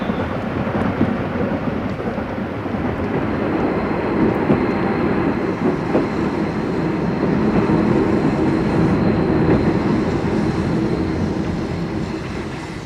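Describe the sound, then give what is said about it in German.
An express train pulls into a station with a steady, heavy roar and rumble that holds throughout, loud and continuous with no clear breaks and no voices. “Es hat Einfahrt der fahrplanmäßige FD-Zug nach Paris. Bitte zurücktreten.”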